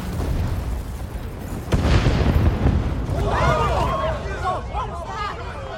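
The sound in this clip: A missile strikes a yacht and explodes, a sudden loud blast a couple of seconds in followed by a heavy, rolling rumble that slowly tapers, with thinner, scattered high sounds after it.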